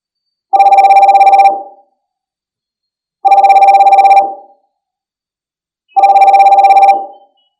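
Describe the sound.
An incoming video call ringtone sounds in three identical loud bursts, each about a second long and evenly spaced, with silence between and nothing else heard.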